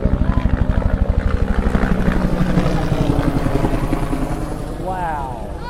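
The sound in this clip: A helicopter flies past with a loud, rhythmic chop of its blades, strongest at first and then fading gradually.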